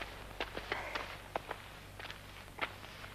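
Footsteps of someone walking away, many faint, evenly spaced steps over a low steady hum, with no voices.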